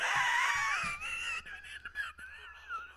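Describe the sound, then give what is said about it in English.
Someone imitates a wheeze with the voice, a thin, squeaky high-pitched tone that wavers up and down and breaks into several breathy bursts with short gaps. “I can do the wheeze, too.”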